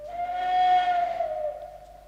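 A train whistle sounds from an English railway company's steam train fired with naphtha: a single sustained, steady tone of moderate loudness that wavers slightly lower near its end before fading.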